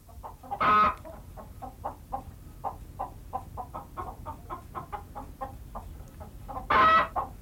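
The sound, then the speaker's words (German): A hen clucks after laying an egg, a steady run of many short, evenly spaced clucks, framed by two louder, harsher cackling squawks near the start and end, with no voices. “Julchen hat ein Ei gelegt! Julchen? Ich hör's! Wie man einen Huhn Julchen nennen kann. Lass sie doch, Paul. Jeden Morgen das Geschrei.”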